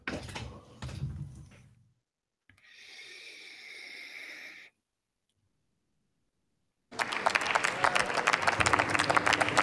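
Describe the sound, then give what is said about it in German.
Applause in a parliament chamber: a dense, loud patter of many hands clapping rises suddenly after a stretch of silence and continues steadily, preceded by brief faint noises and quiet gaps. “Applaus.”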